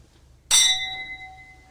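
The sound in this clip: Glasses clinking in a toast: one bright clink rings out sharply, and its clear, high ringing tones hang and slowly fade over the following second.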